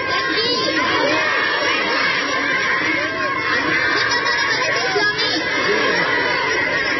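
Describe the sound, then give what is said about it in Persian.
Crowd in a corner of Kunduz chanting Allahu Akbar to welcome the newly declared government: a dense, unbroken mass of raised voices and cheering, with higher children's shouts mixed in. “در گوشه ای از شهر قندوز نیز افرادی با استقبال از دولت موسوم به امارت اسلامی صدای الله اکبر سر دادند.”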